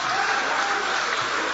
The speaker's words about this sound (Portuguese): Levante a mão então e aplaude.